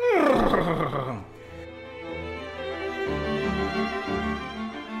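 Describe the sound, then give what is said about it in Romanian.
A horse neighs with a loud, falling whinny in the first second, then a steady, sustained low tone carries on for several seconds. “Deodată se făcu din vâlvă un cal, cel mai frumos din lume.”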